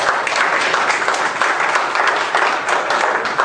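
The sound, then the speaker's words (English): Audience applause breaks out during a church sermon, a steady, dense wash of clapping that holds at a loud, even level for the whole clip with no talk over it. “Give the Lord a hand.”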